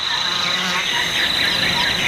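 Steady buzzing of mosquitoes on New Guinea island, a continuous high whining drone that holds without pauses throughout, fairly loud, with no voices.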